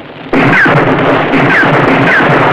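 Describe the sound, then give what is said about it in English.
A gunshot fired into flames in a radio drama effect: a sudden sharp crack breaks the quiet, then a sustained loud rushing roar carries on to the end. “He fumbles for a match, strikes it on the wall, and throws it into the store. Ramon shoots into the flames, leaping before him.”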